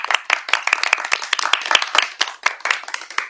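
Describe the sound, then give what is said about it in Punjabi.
Audience clapping and applause, many quick, uneven hand claps, fairly loud, with no talk over them. “Mehtab ਲਈ ਜ਼ੋਰਦਾਰ ਤਾੜੀਆਂ ਵੀ ਇੱਕ ਵਾਰ ਫੇਰ”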